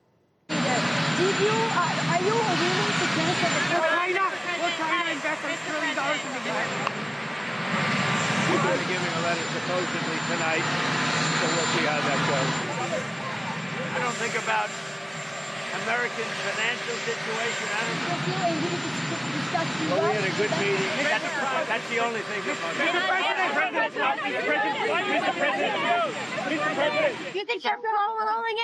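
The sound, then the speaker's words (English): Marine One, the presidential helicopter, roars loudly and continuously for nearly half a minute, a steady engine and rotor whine with people talking underneath. “incomprehensible impromptu press events drowned out by the sound of Marine One.”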